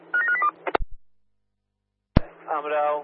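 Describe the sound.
Touch-tone telephone keypad dialing: a quick run of a few beeps, then a couple of clicks and a short silence before a voice speaks.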